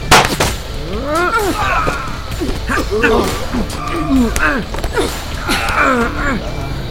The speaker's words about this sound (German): Jetzt erschieß ihn schon.